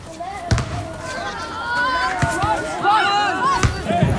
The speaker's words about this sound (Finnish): Jalkapallo kuulostaa tältä.